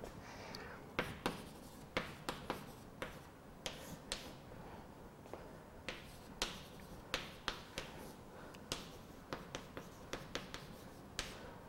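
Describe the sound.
Writing strokes during a mathematics explanation: many short, crisp taps and scratches in an irregular rhythm, fairly quiet and without speech.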